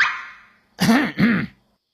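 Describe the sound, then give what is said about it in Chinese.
A man gives a single voiced, throat-clearing cough that breaks into two quick pitched bursts. It follows a fading breathy hiss and ends in silence. “殷侯咳嗽一声，瞟了九头奶奶一眼”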